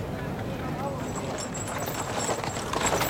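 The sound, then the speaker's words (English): Horse hooves clip-clop as a horse-drawn Victoria carriage rides through Central Park, a steady run of hoof beats over a dense, busy background that grows slightly louder toward the end. “Go for a ride in a Victoria through Central Park.”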